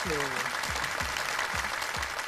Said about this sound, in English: Give me a round of applause. Oh, there we go.